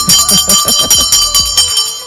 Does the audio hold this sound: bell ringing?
yes